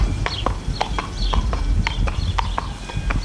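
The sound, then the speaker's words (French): Hooves of a horse walking as it pulls a carriage, a steady, even clip-clop of many sharp hoof strikes with a low rumble underneath. “Alors vous pouvez monter sur le char, on va faire une petite balade. Alors, je m'accroche à la barre qui est devant moi. Hein. Voilà, tout à fait. Et à Flore, marchez.”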